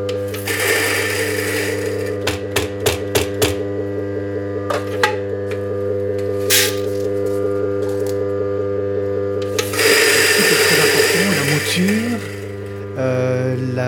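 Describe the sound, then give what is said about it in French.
Electric coffee grinder milling about 7.5 grams of coffee for a cupping: a steady droning motor hum runs throughout, broken by gritty grinding bursts near the start and a louder stretch later on. “Donc on va déjà moudre donc, le café, c'est environ 7,5 grammes de café qui va être moulu.”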